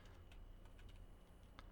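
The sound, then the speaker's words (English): Faint keystrokes on a computer keyboard as a search term is typed, a few quick, light clicks spread unevenly over a quiet background. “Here, I'm gonna type in Ninja Theory here.”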